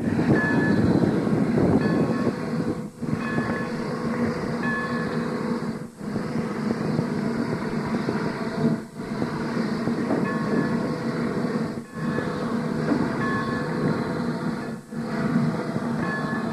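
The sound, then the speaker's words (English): A train rolls along the track on a last run, giving a steady, loud mechanical rumble with five brief regular dips about three seconds apart. No voices are heard. “we're just in the process of clearing on down the track a little bit because the diesel locomotive is on the way in from Trilby, and they have to be out of the way so the diesel locomotive can get by.”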